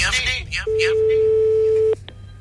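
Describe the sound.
A telephone rings on an outgoing call from a radio show, one steady mid-pitched tone held just over a second after a voice talks, then cut off with a click.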